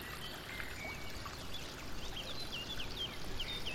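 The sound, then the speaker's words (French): Fountain water pours into a canal in a faint, steady wash, with a few high bird chirps over it in the later part. “Cette fontaine se déverse dans ce canal.”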